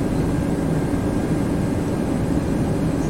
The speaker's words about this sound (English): just had the worst landing